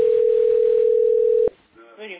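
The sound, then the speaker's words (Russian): A steady telephone tone holds at one unchanging pitch for about a second and a half on an unanswered call, then cuts off abruptly and a voice follows briefly. “И сейчас вот звоню, опять не берет.”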